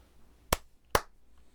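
Two crisp hand claps about half a second apart, made as a sync clap before editing, each short and sharp over a quiet background.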